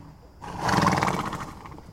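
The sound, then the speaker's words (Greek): A mare neighs in a single loud whinny lasting about a second, with a shaking, rapidly pulsing quality that swells and then trails off. “Ήρθα να δω το άλογο μου. Αυτό πήγα να βουρτσίσω τώρα, δα.”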